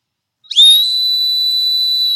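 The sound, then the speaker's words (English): A whistle is blown in one long, sustained blast after a moment of silence. The shrill tone starts with a sharp burst, then holds steady and loud to the end. “I have my whistle. Can I do my whistle? Okay. This is the core whistle.”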